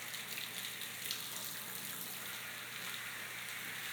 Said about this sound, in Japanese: まずはしっかり泡を流して、毛穴にシャンプーが残らないように軽く手を動かしますね。